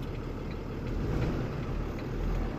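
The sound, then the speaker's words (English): A heavy truck with a straight inline twin-turbo engine, throttle applied, making a low, dull droning rumble that swells slightly and stays steady, with no voices. “So I gotta hit the gas then. No, you gotta hit the gas. Yeah, like that's just like not wanting to go. No, it won't. It's a heavy truck. Okay. But you got a straight inline twin turbo on this.”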